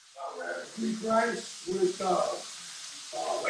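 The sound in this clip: Rice and lamb sizzling as dinner cooks: a steady, bright hiss that runs the whole time beneath people talking.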